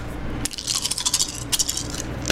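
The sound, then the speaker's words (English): Dice rolling and rattling: a quick run of many small, bright clicks and clatters that bounce irregularly for about two seconds over a low steady hum. “dice rolling”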